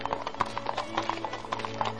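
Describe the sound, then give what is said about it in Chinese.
Horse hooves clip-clop as a horse pulls a carriage along a muddy road, making many evenly spaced, crisp beats in a steady trotting rhythm, fairly soft and alone. “一位车夫拉着马车走在一条泥泞的道路”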